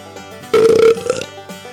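A wet belch sound effect: one loud, low, gurgling burp lasting under a second, with a strong tonal hum inside it, set between quieter moments.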